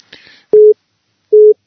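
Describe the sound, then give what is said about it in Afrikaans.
An incoming phone call tone: two short, steady mid-pitched beeps separated by a pause, following a brief soft hiss. “excuse, is net 'n inkomende oproep”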